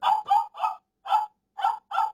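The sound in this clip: A dog barks six short, sharp times in an uneven rhythm: three barks close together, a pause, then three more, each clear and alone against silence.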